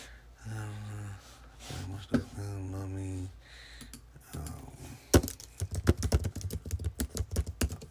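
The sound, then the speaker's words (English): Typing on a computer keyboard: a voice talks first, then many quick, irregular key clicks clatter in a dense run. “Let me see, I'm going to type something in right now.”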